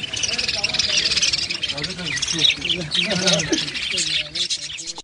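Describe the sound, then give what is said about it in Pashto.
Many small caged birds chirp and twitter at a bird-selling street market in Jalalabad, a dense, continuous high-pitched chatter with people talking underneath throughout. “په دې کوڅه کې د شلو کلونو څخه زیات وخت کېږي چې د مرغانو د پلورلو شل دوکانونه موجود او ډول ډول مرغان پکې پلورل کېږي.”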